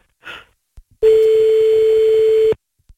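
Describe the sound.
A telephone line tone sounds while calling someone back: one loud, steady, mid-pitched tone holds for about one and a half seconds, preceded by a short breathy noise and a couple of faint clicks.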